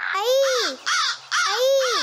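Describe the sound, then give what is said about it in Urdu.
Crows cawing: a few harsh, rasping caws with bright bending overtones come in close bursts, loud and alone. “آپ بھی بھاگے ورنہ یہ کوے ہمیں نہیں چھوڑیں گے.”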